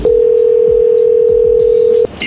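A telephone dial tone plays while a dropped call is redialed. It is one loud, steady, unbroken tone that holds for about two seconds and then cuts off abruptly.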